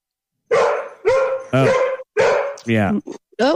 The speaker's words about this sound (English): there goes the dog. The dog is going crazy.